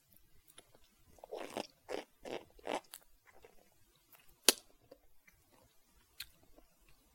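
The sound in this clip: Crisp crunching as someone bites into and eats an ice cream cone, with a few bright, close bites in quick succession followed by a sharp click and quieter chewing.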